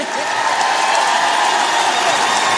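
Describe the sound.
An audience cheers and applauds at a French live show after a band's performance. The clapping is loud and continuous, with shouting voices mixed in throughout.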